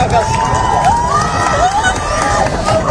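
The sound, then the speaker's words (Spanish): A crowd shouts and cheers outdoors at the Tower of Hercules in A Coruña while watching a spectacle in the sky. The crowd noise is a steady wash, with scattered raised voices and shrill cries rising above it. “Escuchábamos los gritos de la gente en la Torre de Hércules, en La Coruña”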